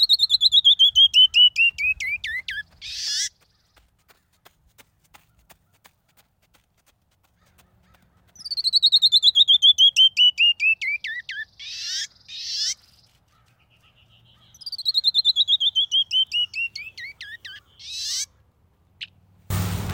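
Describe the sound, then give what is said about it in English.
A canyon wren sings three loud bouts of rapid, clear whistled notes that cascade steadily downward in pitch. Each bout ends in a few harsher buzzy notes, with quiet pauses between bouts. “The first time I heard a canyon wren was as I walked Slot Canyon near Kanab, Utah. They have a delightful call.”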